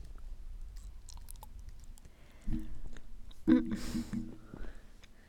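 Close-up gum chewing for ASMR: soft, wet mouth clicks and chewing sounds stay faint at first, then grow louder in a few bursts over the final three seconds.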